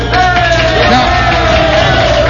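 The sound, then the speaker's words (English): Audience cheering and whooping: a dense, steady roar of crowd voices with yells running through the whole stretch, loud and unbroken. “Now, wait a minute. You better know what you're cheering”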